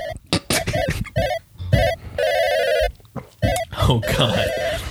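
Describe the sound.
A telephone rings with an incoming call to a show: repeated bright electronic ring bursts in a broken, uneven pattern, loud and insistent, with voices mixing in toward the end.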